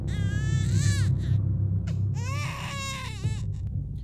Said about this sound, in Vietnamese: mà đứa bé con ấy khóc lên choe choé, chính là tiếng khóc lúc nãy nó đã nghe được.